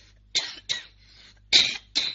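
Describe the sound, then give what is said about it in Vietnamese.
Coughing from someone with a cold, set off by speaking: four short, harsh coughs in two pairs with a weaker breathy sound between, moderately loud over a faint low hum. “Cho nên bị cảm ho này đó, không nói thì nó không ho, nhưng mà mình mở miệng ra nói đó, cái gió nó vào là làm cho mình ho rất là khó chịu.”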